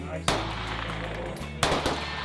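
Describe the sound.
Two sharp pistol shots at a shooting range in central Utah during firearms training for teachers, each a loud sudden crack with a brief fading tail, about one and a half seconds apart.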